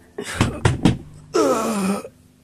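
Knocking on a door: three sharp, solid raps in quick succession, followed by a longer tonal sound.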